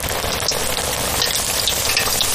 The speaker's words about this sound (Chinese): 加入咸蛋黄，入油锅的一刹那，鸭身膨胀，肉香炸起，